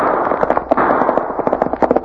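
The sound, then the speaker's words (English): Many rapid gunshots in a gun battle, sharp cracking reports firing in quick, irregular bursts, loud and overlapping throughout with no voices. “That sounds like a regular gun battle.”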